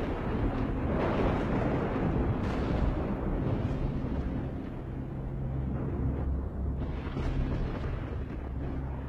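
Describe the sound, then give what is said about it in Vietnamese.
A lightning strike bursting a paper effigy apart in midair sounds as a heavy, continuous rumbling roar that stays loud and steady for about nine seconds, with no distinct separate blasts. “Chỉ thấy một tia sét chiếu từ trên tầng không giáng xuống, đánh cho con hình nhân nổ tan tành trên tầng không”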